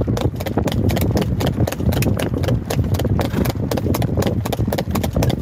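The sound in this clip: A horse walks along a road, hooves clip-clopping in a steady, brisk rhythm, many crisp hoofbeats with no pause.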